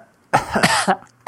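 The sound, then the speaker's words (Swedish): Coughing from someone with a cold: a few harsh, short coughs in quick succession, then a brief pause before another cough begins at the very end. No speech. “Som är de ytterst svaga hostningarna.”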